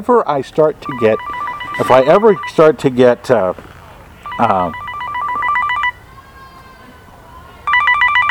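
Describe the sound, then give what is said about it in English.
A mobile phone ringing: a repeating electronic ringtone in bright bursts, partly overlapping with people talking, then sounding alone between pauses. “I'll just hang it up. Is that what you do? That was my phone.”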